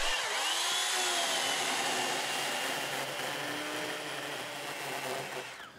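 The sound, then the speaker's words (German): A power saw cuts through beech wood to produce chips for a moisture sample from a delivered load, giving a loud, continuous, steady buzzing whine that eases slightly toward the end, with no talk. “Dafür brauchen sie Holzspäne. Und einer. Es darf aber nicht irgendwo gesägt werden.”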